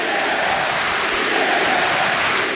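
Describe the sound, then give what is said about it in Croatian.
Norwegian Viking supporters cheering and chanting in a stadium during a football match against Dinamo, a loud, unbroken crowd roar that holds steady for the whole clip. “a čujete norveške navijače.”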